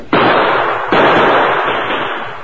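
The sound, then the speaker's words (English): Gunfire from behind a big rock up on a rim in cattle country: two loud sharp reports less than a second apart, each trailing off in a long rumbling, ringing decay. “Hey, look, that shooting's from behind that big rock right up there.”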